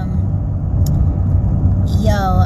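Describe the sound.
Steady low engine rumble and road noise inside a car on a food-delivery drive, continuous and fairly loud, with a brief high chirp near the end.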